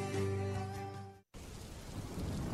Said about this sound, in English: Oh no, it's raining!